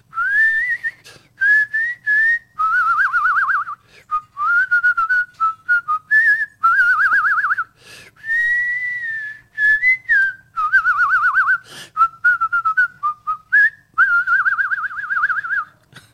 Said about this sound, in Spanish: Y lo de silbar también.